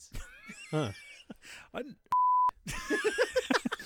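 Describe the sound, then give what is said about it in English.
A censor beep edited into a conversation: one steady, loud, pure high tone lasting under half a second, dropped into a gap between stretches of speech, with people talking before and after it. “We'll see if we can get a hard beep in this edit.”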